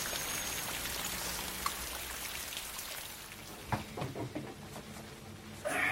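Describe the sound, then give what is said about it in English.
Rain falls as a quiet, steady patter with scattered louder drops, most noticeable in the second half. “Can we go in? It's raining”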